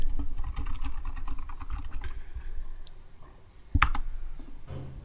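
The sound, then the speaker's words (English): Many rapid keystrokes as a search is typed on a computer keyboard, a steady run of clicky taps over a low background, then one louder clack near the end. “Have you got, are you on your computer? You just have to type in two girls, one cup.”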